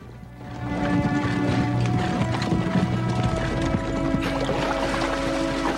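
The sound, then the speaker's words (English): A troop of horses trots single file along a narrow woodland path, their hooves making a dense, steady clip-clop that runs without a break. “In the woods behind him, Hutton's Yankee troop ride single file along a narrow path. Trotting alongside them is the colt”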